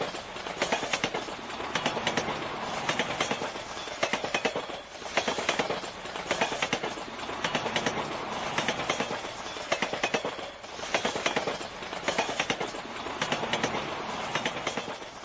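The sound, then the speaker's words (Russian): The accordion gangway between railway carriages rumbles and clatters in a loud, continuous rattle, with rhythmic clacking pulses recurring throughout. “я открыл дверь и вошел в грохочущую гармошку перехода между вагонами.”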